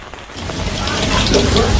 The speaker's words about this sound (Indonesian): untuk pagi ini karena hujan juga belum reda